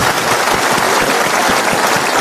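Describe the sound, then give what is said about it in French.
Dense audience applause at a show fills the moment, a loud, continuous wash of many hands clapping at an even level throughout. “Allez, on est au spectacle, vous m'applaudissez par l'otarie.”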